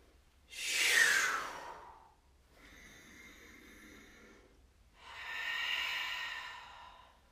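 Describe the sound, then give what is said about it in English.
Deep breaths during a guided breathing exercise: three long, airy breaths with no talk, the first loud and hissy, the second soft, the third moderately strong. “One more time. Inhale.”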